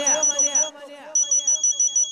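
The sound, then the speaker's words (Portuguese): Mobile phone ringing inside a church, a ringtone of rapid, high-pitched electronic pulses repeating in a steady rhythm, a voice running over the first half before the beeps continue alone. “Sabe o que aconteceu quando ele chegou lá? O celular tocou, mané.”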